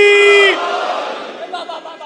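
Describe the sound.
A crowd roars its shouted reply to the Naara-e-Haidari slogan during a religious address. It opens as a loud, sustained chorus of voices, then drops into a lower, ragged swell of scattered shouts.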